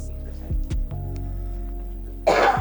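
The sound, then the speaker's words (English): A single short, rough cough bursts out near the end, after a stretch of quieter low tones. “Hey, I had to cough. Look, I ain't coughing the mic.”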